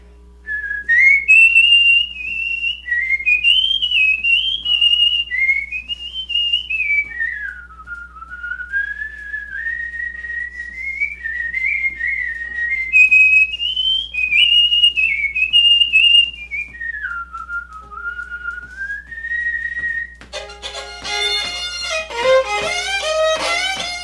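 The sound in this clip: A person whistles a waltz melody alone, a clear, bright tune with smoothly gliding pitch that climbs and dips in long flowing phrases.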